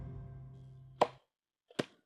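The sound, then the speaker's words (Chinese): Cooked, peeled potatoes are pounded in a vessel into a smooth, sticky paste for a highland potato cake. Two sharp, heavy thuds come about a second apart, separated by near silence. “将熟透的洋芋趁热扒皮，放入器皿中反复捶打成细腻黏糯的泥状。”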